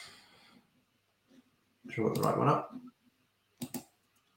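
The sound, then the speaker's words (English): Computer mouse clicks as the share-screen button is pressed: a few brief, sharp clicks separated by near silence, with soft breathy noise between them. “So let me just click on share screen.”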